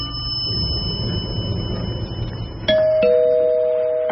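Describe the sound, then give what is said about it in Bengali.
An electronic doorbell at a fifth-floor flat in a small apartment block, reached by lift, rings once with a two-tone chime: a higher note, then a lower one that rings on. Before it there is a stretch of low background rumble. “লিফটে করে উঠে bell বাজাতে ভদ্রলোক নিজেই দরজা খুললেন।”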